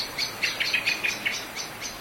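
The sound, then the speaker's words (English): Blackbird alarm calls at nightfall in Tasmania: a rapid series of many short, high, sharp chirps, fairly faint and evenly spaced, with no other sounds. “Apart from the alarm calls, blackbirds have a wonderfully carefree song in springtime.”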